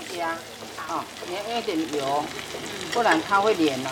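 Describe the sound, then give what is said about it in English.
Taiwanese hamburger patties sizzle in cooking oil in a pan, a steady, soft crackling hiss that runs underneath continuous talking. “Make sure you put enough cooking oil. Otherwise, the meat will stick it to the pan.”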